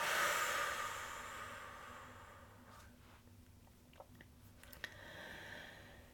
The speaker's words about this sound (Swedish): Så tar vi ett djupt andetag och håller kvar. släpp taget.